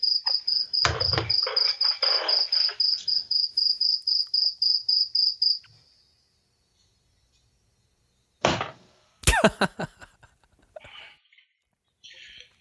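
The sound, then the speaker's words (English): A single loud cricket chirps in a fast, regular pulse of many high, shrill notes. It stops abruptly, then after a pause come a few sharp knocks and rustles. “That damn cricket. I hate to say this, but it really is pretty loud.”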